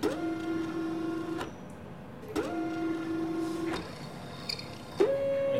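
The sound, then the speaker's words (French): The automatic sample changer of an atomic emission spectrometer moves to draw up sample solutions of Piombino ointment, giving three runs of mechanical motor whine. Each run begins with a sharp click and is separated from the next by a short pause. “Donc là, c'est le passeur automatique d'échantillons qui se déplace pour aller aspirer les solutions qui contiennent les échantillons de la pommade de Piombino, qui sont ensuite aspirés pour être injectés dans le plasma d'argon.”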